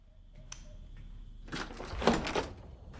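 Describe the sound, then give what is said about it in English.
A house's front door being opened at night: a faint click, then a louder burst of rattling and rustling as the door swings open. “opens the front door”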